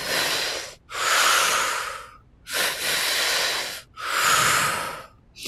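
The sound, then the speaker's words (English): Conscious, continual breath work: a few long, forceful breaths, each a loud, breathy rush of air, repeating with only short pauses between them and no talk. “when we learn to breathe to thrive, what that is conscious, continual breath work, which can sound like this.”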